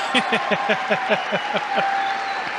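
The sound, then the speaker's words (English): Crowd cheering at a political rally for President Trump, a loud, dense roar with a fast rhythmic pulse like chanting or clapping that runs steadily throughout. “Listen to the crowd.”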